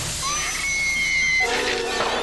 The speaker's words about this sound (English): So one turd down. Let's flush the next one.